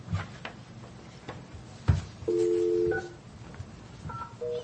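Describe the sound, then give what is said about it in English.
Telephone keypad dialing tones: a few steady, dual-pitched electronic beeps, one of them held longer than the rest, follow a soft click and low thump. “No, you dial the number, the 9, the 1.”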